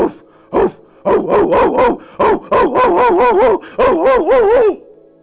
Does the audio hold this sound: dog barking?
yes